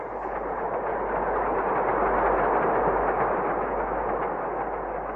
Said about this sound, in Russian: Это поезд? Да. Железная дорога проходит рядом с нами.